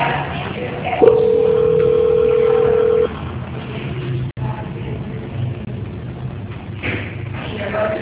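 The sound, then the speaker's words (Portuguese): A telephone call transfer plays a steady, flat tone for about two seconds over narrow phone-line hiss, then the tone cuts off, a brief click follows, and the line hiss continues. “Eu vou transferir a ligação. Obrigado. Transferência.”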